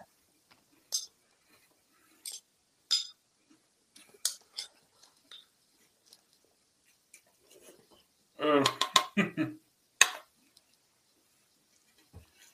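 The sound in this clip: A spoon clinks against a bowl while someone eats cereal with milk: many sharp, bright taps scattered through near-silence, with a short burst of crunchy chewing and clicks toward the end.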